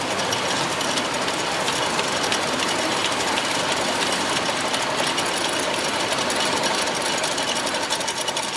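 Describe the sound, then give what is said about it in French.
Two identical tube-making production machines run side by side, each turning out about 350 tubes a minute. Together they make a loud, dense, unbroken mechanical clatter with rapid, fine ticking that holds steady throughout. “donc nous avons ici deux machines identiques. Chaque machine produit à peu près 350 tubes à la minute”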